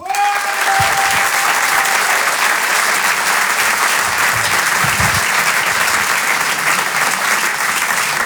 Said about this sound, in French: On peut l'applaudir très très fort, Elias Zoghani. Bravo Elias.